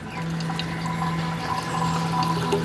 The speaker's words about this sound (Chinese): 遇冷凝成液体，顺倾斜的挡板和细麻绳流出蒸馏桶，滴落到外面承接的容器里。